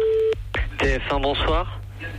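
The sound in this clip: A telephone call being placed to the French TV channel TF1: a brief steady tone, then a few clicks followed by a tonal, voice-like burst over a low constant hum.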